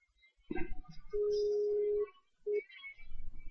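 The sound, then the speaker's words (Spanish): A telephone rings on an outgoing call placed during a live school program. A quiet, steady tone holds for about a second, pauses, then returns briefly, with a few soft handling noises before it. “Ahora está sonando el teléfono.”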